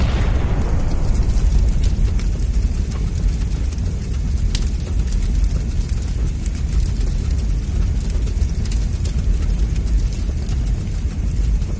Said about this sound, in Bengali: সেই আগুনের তাপে ঘি গলে গিয়ে টিন ফেটে দোকান ঘরে আগুন লেগে গেল।